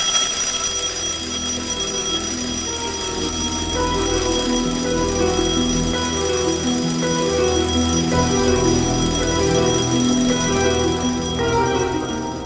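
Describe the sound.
An alarm clock rings on and on, a loud, steady, dense metallic ringing that holds for about twelve seconds and tapers slightly at the very end.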